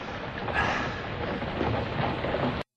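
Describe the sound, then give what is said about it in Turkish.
Heavy rain pours down near a house as a train slows and leaves. It is a steady, dense hiss with a low rumble underneath, staying even and fairly loud until it cuts off abruptly near the end. “Ne yağmur.”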